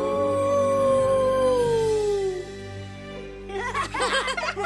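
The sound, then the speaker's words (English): Wolf pups howl at night in snowy mountains beside a lake. One long howl slides downward in pitch, followed by a burst of higher, choppy yips and wavering howls. “The pups howl in front of the moon.”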